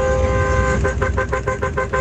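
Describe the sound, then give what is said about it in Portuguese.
Car horns honk at dawn, around half past four in the morning: a sustained horn blare, then a rapid string of short toots over a low rumble of traffic. “4h34 da manhã, o povo buzinando.”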